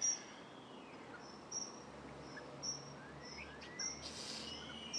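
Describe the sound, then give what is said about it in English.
Birdsong outdoors in the morning: repeated high, thin chirps at fairly regular intervals, with a few softer sweeping calls between them, all faint over a steady background hiss. “surrounded this morning with birdsong. It's great.”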